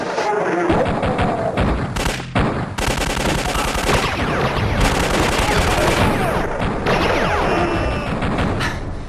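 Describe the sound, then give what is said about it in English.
Gunfire in a video game: dense, loud bursts of shots and crashing blasts run almost without pause for the whole stretch, in a thick, steady barrage. “I'm just going to shoot my way into chapter one. Here I go!”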